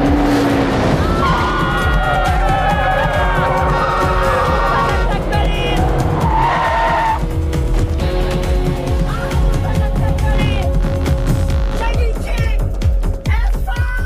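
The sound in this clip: Cars driving hard with tires skidding and squealing: a dense, continuous engine roar with high, pitched screeches sliding in and out, and voices mixed in throughout.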